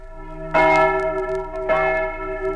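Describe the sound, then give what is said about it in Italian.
A church bell in the mountain village of Timau in Carnia, rung by a woman pulling its rope. Two loud strikes come about a second apart, each leaving a rich, sustained, humming tone. “Alla corda di questa campana di Timau su Incarnia una donna.”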